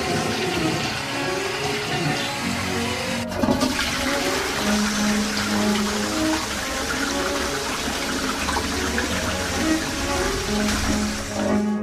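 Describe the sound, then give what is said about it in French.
A toilet flushes with a loud, steady rush and gurgle of water that runs without pause for about twelve seconds. “Tirez la chasse!”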